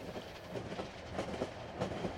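A train rolls along rails through California with a steady rumbling clatter of wheels. Faint rhythmic clicks run through the continuous noise, and no voices are heard.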